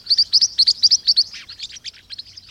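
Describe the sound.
Green-rumped parrotlets give many quick, high-pitched chirping calls in a rapid series, loud at first and then fainter and more scattered.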